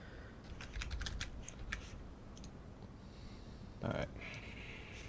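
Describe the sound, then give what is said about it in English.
Faint keyboard typing while a tweet is written: a quick run of light clicks, then a few scattered taps and a brief louder clatter near the end. “I'm just writing up something quick on the DualShock and Sense podcast, Twitter.”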